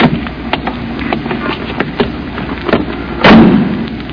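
A taxi cab pulls up at a curb and its door opens: a low engine rumble runs under scattered clicks and knocks, with a louder rush of noise near the end.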